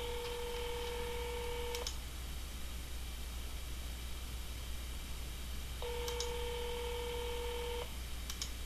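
Telephone call that fails to ring through: two electronic tone bursts of about two seconds each, separated by a long gap, over a steady hiss.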